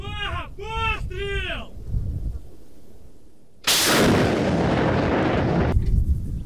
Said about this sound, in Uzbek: Bu raketa tizim bilan jihozlangan yuk mashinasi bo'lib, unga Sovet Ittifoqi davrida ishlab chiqarilgan BM-21 grad barobar raketa uchirish tizimi o'rnatilgan.